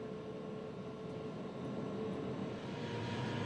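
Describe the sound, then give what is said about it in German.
Steady, loud rumble of a test freight train running through a new rail tunnel in Switzerland before its official opening. A continuous dense roar with no breaks and no voices. “Vor der offiziellen Inbetriebnahme des neuen Tunnels fahren wir mit einem Probegüterzug von Chiasso nach Arth-Goldau, also in Süd-Nord-Richtung auf der NEAT.”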